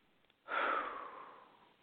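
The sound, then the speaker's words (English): A long, breathy exhale during a group grounding exercise of deep breathing. It starts sharply, then fades slowly over about a second and a half, with no talk. “Let's just take some deep breaths in together and exhale.”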